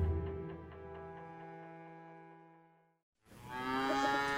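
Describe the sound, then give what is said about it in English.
Cattle mooing on a farm: one long, low, harmonic moo lasting about three seconds, then a brief pause and a second loud moo that runs to the end. “Well, here we are back on the farm.”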